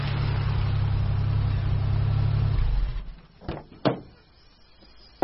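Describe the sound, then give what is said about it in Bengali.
A car's engine drones low and steady, then cuts off as it arrives. A few short clunks follow in the quiet. “Soumya গাড়িতে উঠে পড়ল। এবং কিছুক্ষণের মধ্যে পৌঁছে গেল তার গন্তব্যে।”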